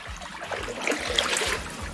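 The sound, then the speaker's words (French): Someone rows with oars through water, giving a regular series of soft splashing strokes over a constant trickling, sloshing wash, fairly quiet, with no voices. “Alors, il y a de l'eau, évidemment. L'eau, on l'entend, mais c'est bien quelqu'un qui rame.”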